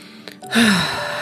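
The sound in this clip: A deep exhale through the mouth: one long, breathy rush swells up quickly and then holds steady to the end.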